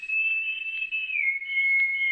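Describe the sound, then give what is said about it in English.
A soft answering whistle, one sustained high pure tone that holds steady, dips slightly in pitch partway through and then carries on alone for about two seconds. “Then, almost like a delayed echo, there was an answering whistle.”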